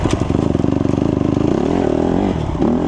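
Honda CRF150R 150cc dirt bike engine revs. Loud, rapid, choppy engine pulses give way to a smoother, climbing rev, alone without talk.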